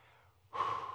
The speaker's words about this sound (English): Deep breath.